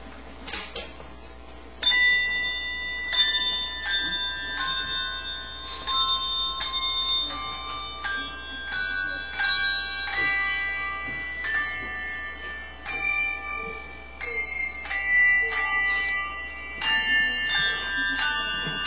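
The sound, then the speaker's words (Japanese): Handbells playing a hymn, with many struck bright notes ringing in a steady, measured melody, overlapping tones sustaining and decaying between strikes, moderately quiet throughout with no voices. “ハンドベルの賛美歌くしき星をお聴きください。”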